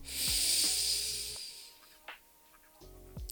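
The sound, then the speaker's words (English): Someone draws a deep breath in, a long airy hiss that lasts over a second and slowly fades. A few faint clicks follow in near-quiet. “On the count of three. 1, 2, 3. We're going to take a deep breath in.”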